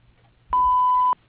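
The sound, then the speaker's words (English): Voicemail beep tone: a single clean, steady electronic beep at a mid-high pitch that lasts just over half a second, starting and stopping abruptly against near silence. “Please leave your name and number at the sound of the tone.”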